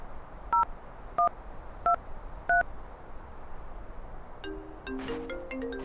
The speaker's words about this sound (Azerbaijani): Telefoningizdan telefon qilsam bo'ladimi?